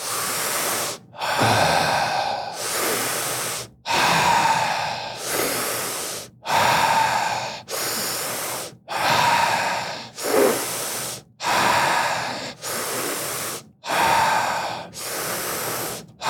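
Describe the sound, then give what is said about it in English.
Deep, slow breathing in and out during a guided breathing exercise, with many loud airy inhales and exhales that follow one another in an even rhythm, each separated by a brief pause. “Let's just start with one nice breath in. Out. And let's begin. So deep breaths.”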